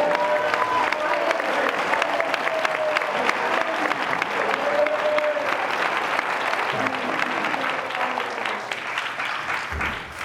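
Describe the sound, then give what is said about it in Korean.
An audience claps hands at a church camp meeting, a steady dense roar of applause lasting about ten seconds, fading slightly near the end. “I think we need to clap our hands to the Lord tonight. 오늘 우리 주님 앞에 영광 박수 부릅니다.”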